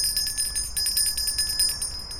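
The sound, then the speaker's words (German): A small bell is rung at a set of gates, with rapid, repeated jingling strikes in a bright, high tone. The ringing is fairly faint and continues through the whole moment. “Wer läutet da an meinen Pforten?”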